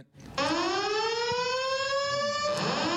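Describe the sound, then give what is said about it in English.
A false alarm goes off as a loud, siren-like electronic wail. It rises steadily in pitch after a short quiet start and then holds a sustained, bright tone to the end, with no voices. “life happened. A false alarm going off for 7 minutes.”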